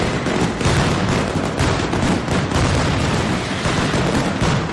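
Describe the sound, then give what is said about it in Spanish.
Dense firecracker explosions from a mascletà at the Valencia Fallas, a display firing 274 kilos of gunpowder. Loud, continuous rapid-fire bangs and booms merge into an unbroken roar throughout. “Sonido en directo a esta hora que nos llega desde allí, desde Valencia, con la mascletá de más cantidad de pólvora que se dispara de todas las fallas.”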